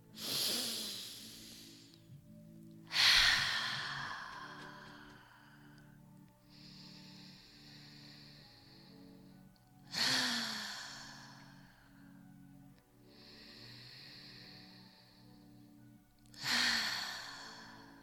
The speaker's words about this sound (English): So let's take a deep breath in through our nose. Let's go for 5 more.